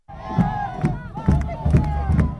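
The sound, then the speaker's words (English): Crowd of Cristina Kirchner supporters cheering outside a courthouse in Buenos Aires, loud massed voices rising and falling in about five rhythmic, chant-like shouts over a constant roar. “Cristina Kirchner can still pull a crowd. These people are outside a courthouse in Buenos Aires, cheering her on.”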